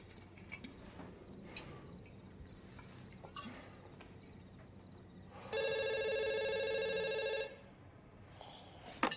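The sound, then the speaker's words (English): A telephone rings beside someone lying in bed: one loud, buzzy electronic ring burst lasting about two seconds, alone, after faint scattered ticks and rustles. “Lying in bed, Bad fumbles for the phone.”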